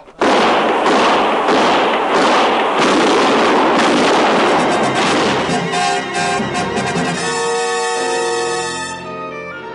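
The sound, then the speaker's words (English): Rapid gunfire in a night skirmish, a dense run of many loud shots packed closely together for several seconds before the barrage thins and fades into a sustained ringing tone. “Shoot, and for Lord's sake, don't miss. Shoot!”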